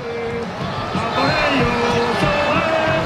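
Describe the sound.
Football fans in Madrid's Plaza de Colón celebrate Oyarzabal's penalty goal with a dense, loud, continuous crowd roar that holds steady throughout.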